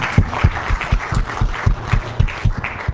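Audience applause after a lecture, heard as steady, fairly loud clapping with distinct, evenly spaced beats and a muffled tone.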